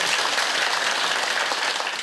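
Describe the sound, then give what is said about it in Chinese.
Audience applause at a temple dedication ceremony: dense, steady clapping from many hands, fairly loud and even throughout, with no clear voices. “咱遮师兄确实功夫一级棒，拍手啊！”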